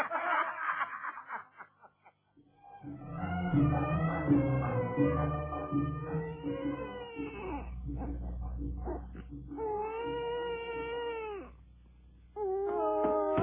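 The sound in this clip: A young child cries in wavering, high-pitched wails and whimpers during a radio drama scene, with sustained crying broken by short pauses and a low hum underneath.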